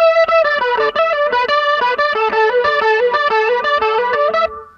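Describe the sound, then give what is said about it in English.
Guitar solo played through a DOD distortion pedal with a Big Muff: a fast run of single notes with a thick, buzzy, sustaining tone, loud and continuous before trailing off at the end. “I can't remember what I exactly did, but that's pretty much the sound. And I think I used a big muff with it”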